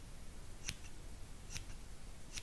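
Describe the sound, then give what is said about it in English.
Tiny detail shears snip while trimming the edges of a stuffed animal's fur at a pretend salon, giving three faint, crisp metallic clicks spaced apart over a soft hiss. “in with my teeny tiny detail shears, which we're going to use to clean up the edges to a very precise point.”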